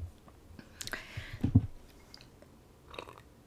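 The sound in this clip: Quiet mouth sounds of someone sipping coffee, a few soft, brief slurping and swallowing noises with no talk.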